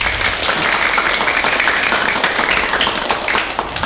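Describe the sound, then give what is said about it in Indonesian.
Children clap their hands in lively applause, a loud, dense and even patter that holds steady from start to finish. “Luar biasa ya teman-teman. Mana tepuk tangannya?”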